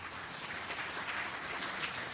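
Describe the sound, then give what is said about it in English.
An audience gives a steady round of applause to welcome a team of discussion leaders. The dense clapping is fairly faint and runs without pause. “Let's give them a big round of applause.”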